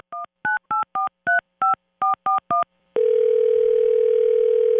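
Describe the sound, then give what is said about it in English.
A telephone being dialed: nine quick touch-tone beeps in an uneven sequence, each a short, clean dual tone, followed by a steady, continuous line tone that holds to the end. “Why don't we dial her?”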